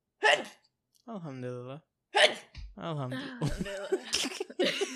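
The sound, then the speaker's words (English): Two sharp, noisy sneezes burst out in an odd, exaggerated way. Each is followed by squeaky voiced sounds, and the last gives way to laughter and overlapping chatter. “Why do you sneeze like that? Like, you're freaking like Captain America.”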